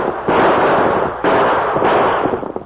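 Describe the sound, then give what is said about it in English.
Rapid gunfire sound effect from a Western drama's stagecoach holdup scene: dense, crackling volleys of shots in two loud bursts that run together without pause. “Three of them, Tonto. Use your guns.”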